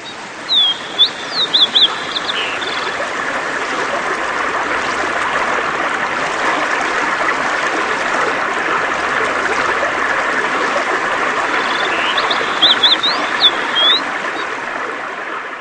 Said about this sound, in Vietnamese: Tốc độ bè tăng dần lên, người chống sào nói to. Ngồi yên nha, chuẩn bị vượt ghềnh đó.